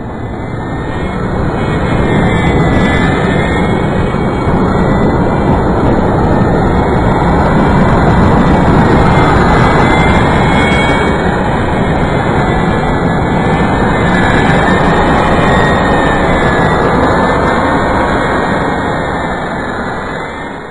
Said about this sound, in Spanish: Y el sonido que produce un avión jet al despegar